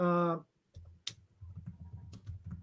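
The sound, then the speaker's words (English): Loud typing on a computer keyboard: a few sharp, separate key clicks mixed with talk and low rustling. “I typed very loud. I apologize.”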